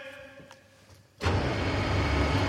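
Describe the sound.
Motorized concert hall stage platform being raised: after a quieter stretch with faint tonal humming, a loud, broad whirring rumble starts abruptly and continues steadily to the end.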